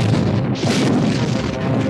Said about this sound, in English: Fire photon torpedoes. The torpedoes shot away and blasted into the Reliant, nearly ripping her apart.